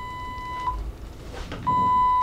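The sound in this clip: A hospital heart monitor beeps in a patient's room, two short electronic tones a second apart, the second stretching into a steady held tone over a low background hum.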